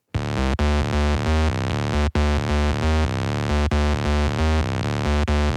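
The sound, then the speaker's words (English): A simple bass synth plays a loud, low line of repeated notes in a steady pulsing rhythm, with a few brief dropouts between phrases. The tone is bare and buzzy, with no other instruments. “There's only this really cool bass synth. And it's an extremely simple sound. I'm not sure what synth is making it, but it sounds like this.”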